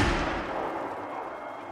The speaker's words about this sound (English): That sounded like a real gun.